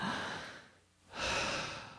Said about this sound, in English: That's breathing.